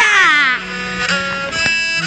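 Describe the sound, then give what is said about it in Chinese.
An infant cries loudly in a Wuxi opera (Xiju) drama scene, one long, strained wail that slides downward in pitch and then keeps going at full volume. “啊！我儿子怎么哭得这样厉害？ 啊，不要哭，不要哭。 怎么一回事啊？ 啊啊！ 怎么哭得这么凶啊？”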